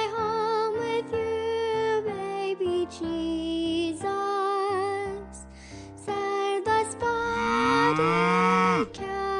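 A spotted cow moos in a series of long, drawn-out lowing calls that shift in pitch, ending with a sweeping, rising moo, with no talk over it.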